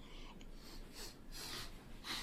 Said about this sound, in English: Could you both, gentlemen, sniff? Sniff? Yes, please.